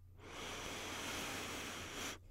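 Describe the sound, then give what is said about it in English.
A deep breath drawn in: one long, airy, steady inhalation that lasts about two seconds and then stops abruptly, heard alone. “Deep breath in.”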